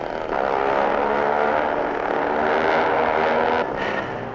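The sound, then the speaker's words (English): A small motorized cart drives up, its engine a steady, buzzing drone that stays loud and level throughout and eases off slightly at the end. “Hey, who's driving your cart?”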